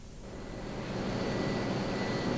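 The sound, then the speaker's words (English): A power station generator running: a broad, steady roaring hum that swells during the first second and then holds level and loud. “This is the center of the power station. What's that? It's a generator. What does it do? It makes electricity.”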